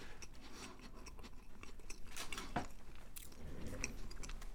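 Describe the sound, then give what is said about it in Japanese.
Crisp crunching and chewing of a light, airy summer-version sweet with a crunchy outside, heard as several quick, brittle bites and soft chews at low volume, with no talk. “さあ今いただいてます”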